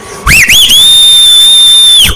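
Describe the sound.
A loud human whistle opens with two quick rising swoops, then holds one steady high shrill note for over a second before dropping off sharply. It is heard alone, with no talk.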